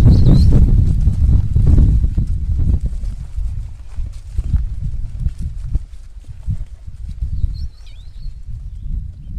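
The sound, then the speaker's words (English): Footsteps fall in a steady, dull rhythm on a morning anti-poaching patrol in a wildlife sanctuary near Kariba, Zimbabwe, with a faint bird chirp near the end. “This is the sound of nature, the sound of footsteps and birds in a wildlife sanctuary near Kariba”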